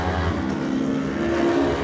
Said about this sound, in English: Look at a drag race there.